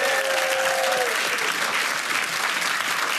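An audience applauding to welcome a guest onto a show's stage: dense, steady clapping from a crowd that stays loud and even throughout.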